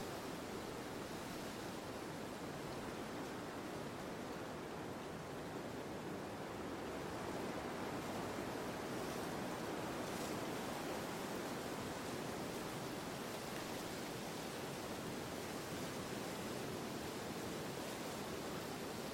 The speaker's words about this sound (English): In slow motion, the rolling barrels of threatening waves move relentlessly towards land.